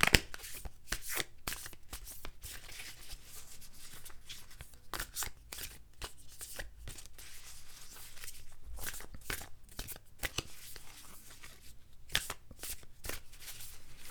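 A deck of oracle cards is shuffled in many quick, crisp riffling bursts that repeat steadily throughout, fairly faint and with no talk over them.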